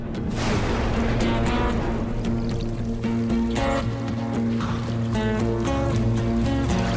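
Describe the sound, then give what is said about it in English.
Rainwater runs off a rock face into a narrow canyon during a storm, a loud, steady pouring and rushing flow that holds without pause throughout. “The rain starts to run off the rock face and gather momentum. It grows from a trickle to a rapid flow.”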